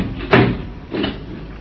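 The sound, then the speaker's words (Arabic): A door is pushed shut in a drama scene, giving a firm thud followed by a softer second bump against a faint, steady background hiss. “طيب طيب تعالي استنى ما رد الباب.”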